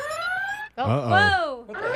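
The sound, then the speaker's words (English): A comedic alarm sound effect, the so-called friendship alarm, goes off as a wavering electronic tone with rising and falling pitch, while people exclaim in surprise over it. “It's our alarm? That's the sound of the friendship alarm.”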